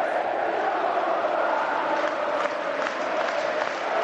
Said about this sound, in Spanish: Y aplaude, y canta, y festeja este Estadio Carlos Tartiere, el Fondo Norte.